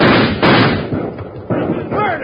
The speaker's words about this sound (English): Come on. Fight them off. Shoot all of them.